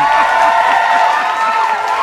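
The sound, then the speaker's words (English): An audience applauds with cheering and whoops mixed in, a loud and even burst of clapping and crowd noise that carries on throughout. “Let's give Audre Lorde a warm round of applause for that joint right there”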